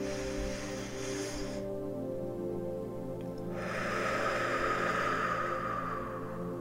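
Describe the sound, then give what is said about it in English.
A deep breath taken during a relaxation exercise, heard as soft airy rushes of breath over a sustained, steady musical drone. “So just kind of shake it out, relax. Let's take a deep breath.”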